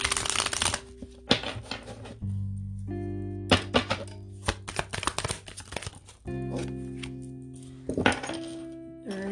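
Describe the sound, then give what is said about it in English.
Tarot cards being shuffled and falling on a floor: repeated papery riffles, flutters and slaps come in loud bursts over a steady tonal background hum. “Cards are just falling all over the floor.”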